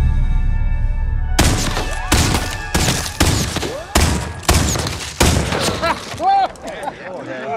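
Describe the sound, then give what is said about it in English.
Gunfire from a gunfight scene in the film The Magnificent Seven: a rapid series of loud, sharp shots in an irregular rhythm, each leaving a ringing, decaying tail, with a low rumble underneath. “That's some fancy shooting there.”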